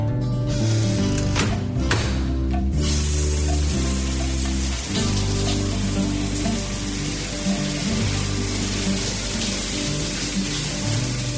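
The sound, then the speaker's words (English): A shower runs with a steady, loud hiss of spraying water. Low tonal music plays underneath. “Mom, the shower's cold.”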